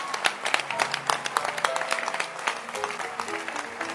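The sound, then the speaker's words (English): Congregation clapping hands during a church conference, a dense, steady burst of applause with sharp individual claps, sustained throughout and fairly loud. “You can can you clap your hands that God is at work.”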